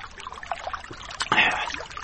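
A sip of Fanta soft drink, with faint wet mouth sounds followed by a short, louder slurping draw near the end.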